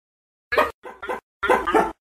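Barking from a small Akita dog in a courtyard: a few short, sharp yaps in quick bursts with silence between, fairly quiet and with no other sound.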